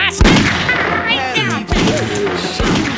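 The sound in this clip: Gunfire in a video game: three sharp, loud bangs, each with a short crashing decay, spread across a few seconds.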